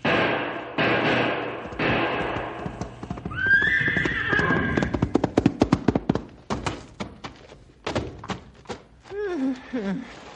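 A horse neighs and clatters its hooves in a dramatic scene of a wounded rider and horse facing a charging bull. A high, wavering whinny gives way to many rapid hoof clops, then a shorter whinny near the end.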